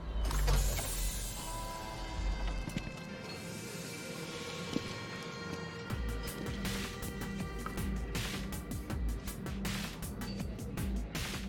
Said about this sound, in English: Uh, our air car is parking.